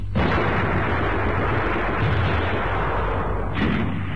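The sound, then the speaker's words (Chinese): Concentrated gunfire laid down to block the way ahead in a war drama battle forms a loud, dense, unbroken barrage of overlapping shots and booming blasts, with no voices. “集中火力封锁前面。同志们，我们绝对不能让敌人冲出来。”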